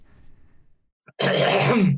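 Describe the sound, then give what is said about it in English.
Throat clearing before a tongue-twister attempt: one rough, raspy burst of throat noise lasting under a second. It follows a few faint low sounds and a brief click, then stops. “Clearing the throat.”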